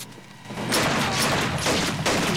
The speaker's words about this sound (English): The guy with the gun shoots a guard.